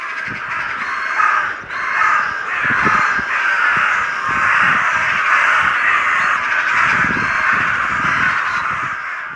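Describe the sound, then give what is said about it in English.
Crows caw from the tops of two trees, many loud, harsh calls overlapping in a dense, continuous chorus, with steady wind noise underneath on a windy day. “here's 10 seconds of crows that I heard earlier today. I'm not sure what exactly was going on, but they were having this incredible confab at the top of two trees and making these incredible sounds.”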